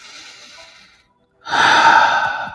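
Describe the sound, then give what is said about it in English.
A big deep breath: a softer airy breath, a short silence, then a long, loud rush of breathy air that holds steady to the end. “Take a big deep breath.”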